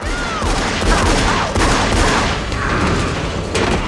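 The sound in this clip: Pistol gunfire in a dramatized scene comes as a loud, dense, continuous roar of shots and blasts with no clear gaps, filling the whole stretch.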